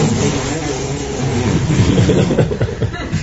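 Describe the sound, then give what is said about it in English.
A man imitating a car motor with his mouth: a loud, steady, buzzing rumble held for about three seconds, like an engine idling, with a rough, slightly pulsing texture. “the car's going nowhere, he's just making a sound of a motor with his mouth.”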